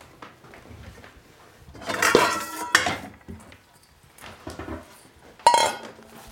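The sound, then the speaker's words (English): A bowl and utensils clatter as leeks, lemon zest, salt, pepper and olive oil are added. Two loud bursts of clinking and scraping stand out, with quieter knocks between them. “I'm gonna put this in a bowl, my leeks, my lemon zest, salt and pepper, and a little olive oil.”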